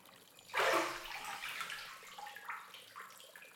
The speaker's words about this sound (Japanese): それじゃあ一回お湯から出て涼みましょうか。